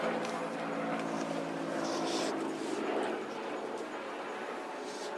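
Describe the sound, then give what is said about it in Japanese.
A helicopter flying overhead gives a steady, broad engine roar that stays at a fairly even level throughout, with no distinct beats standing out. “何か事故があったかな。いや、大抵ね、事故があった時にヘリコプター飛ぶんだけど”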